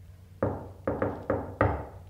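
Knocking on a door: five firm, dull, resonant knocks, one alone, then a quick pair, then two more spaced apart, each with a short ringing decay and no voices.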